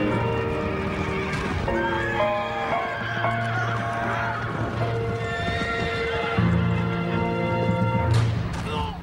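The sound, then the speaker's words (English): Horses whinny and neigh repeatedly while hooves clatter and thump in a Civil War cavalry battle, a loud, dense, continuous mix with shouting voices throughout. “A Yankee rider and horse tumble.”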